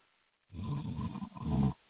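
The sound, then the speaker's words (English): A person snoring: two rough, rasping snores in a row, the second one shorter and somewhat louder, with a low, guttural rattle and no talk over them. “Yeah, somebody snoring.”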